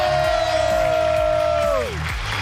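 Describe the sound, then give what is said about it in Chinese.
Stadium crowd noise with applause after England captain Harry Kane's 41st-minute goal makes it 2-0, a dense steady roar throughout, with a sustained tonal note riding above it that drops in pitch near the end. “现场朋友们用掌声送给进球的队长哈利凯恩。”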